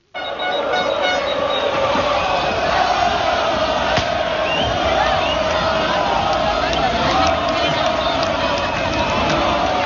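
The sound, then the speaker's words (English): A dense roar from 60,000 Lens football fans welcoming their team back after a Coupe de France win, loud and steady throughout, with horn toots cutting through the crowd noise. “Sound of 60,000 Lens fans welcoming their team back after they beat Nice to win the Coupe de France for the first time in their 120-year history.”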